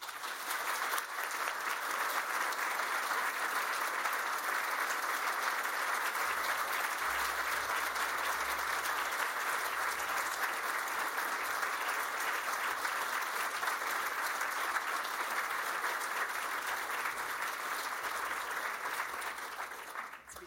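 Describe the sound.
An audience applauds to welcome speakers to the stage with dense, steady clapping that holds at an even level for about twenty seconds, with no talking.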